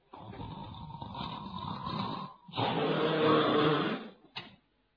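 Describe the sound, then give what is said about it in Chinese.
A storyteller voices a sleeping man's snoring: a long rasping inhale, a louder, rougher snore after a short gap, then a brief snort at the end. “就听这哈雷在屋子里边就打上呼噜，”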